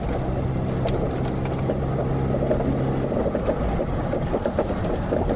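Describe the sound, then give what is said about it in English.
Rumbling road noise from a car driving over bumps and what sounds like gravel, with suspension struts suspected as the noise source: a steady low drone and hum throughout, with irregular faint knocks and rattles on top. “Number six was supposed to be struts. Is that another thing that can make noise when you go over?”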